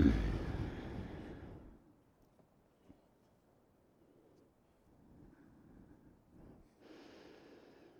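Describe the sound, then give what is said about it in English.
Breathing during a yoga exercise, with a strong, rushing nasal exhale at the start that slowly fades. A quiet stretch follows, then a second, softer breath near the end. “Yeah, that's a good breath. Smooth, slow exhale by the nose.”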